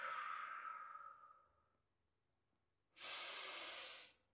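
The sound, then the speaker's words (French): Two deep breaths, taken slowly while settling into relaxation: a long, fading airy exhale, a quiet pause, then a fuller, steady inhalation that stops abruptly. “Parfois, ces deux grandes respirations.”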